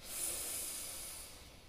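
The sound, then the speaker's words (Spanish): A single nasal inhale during a guided breathing exercise: one faint, steady, airy hiss drawn in through the nose, lasting under two seconds and heard alone without talk. “Inhala por la nariz.”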